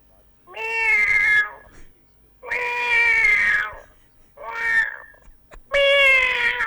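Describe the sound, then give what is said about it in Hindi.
A voice imitates a hungry cat meowing: four drawn-out, tuneful meows with clear harmonic tone, each separated by a short silence, heard alone. “जब बिल्ली भूखी होती है ना, हाँ पता कैसे कर दिया?”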